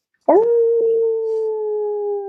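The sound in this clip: A human voice imitates a dog howling at the moon in one long, sustained howl. It starts with a brief rising swoop, then holds a steady, slightly falling tone for about two seconds.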